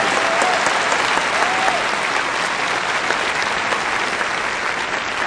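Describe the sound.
An audience at a ministry gathering gives a guest speaker a warm welcome with loud, dense applause, many hands clapping steadily and evenly for several seconds without letting up.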